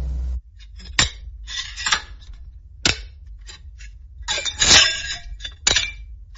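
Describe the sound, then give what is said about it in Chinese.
A locked box pulled from a river is forced open, giving irregular bursts of sharp metallic clanks, knocks and rattling clatter, with quiet gaps between them and a denser cluster of clinking toward the end. “哦，是个箱子，还上了锁。 谁会把上锁的箱子丢进河里？贾凡儿，打开。”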